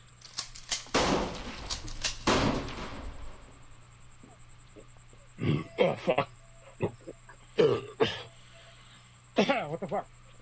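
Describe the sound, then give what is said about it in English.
Two loud shotgun blasts crack out at clay targets in quick succession early on, then people talk in short bursts over a faint steady hum. “So, whenever you want to shoot the clay... I'm ready. Here we go.”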